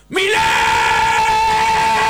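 A person lets out a loud, sustained yell that bursts in after a brief silence and holds one steady pitch for about two seconds, with no other talk around it.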